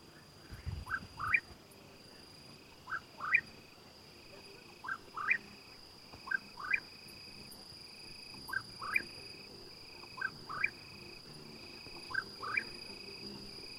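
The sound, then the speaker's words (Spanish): A cucurrí bird sings at night in repeated pairs of short, rising whistled notes, quiet and evenly spaced, while crickets chirp in the background as a steady high drone. “cucurrí y es un pájaro que solo canta de noche. Muy al fondo se escuchan algunos grillos que ya empiezan a estridular.”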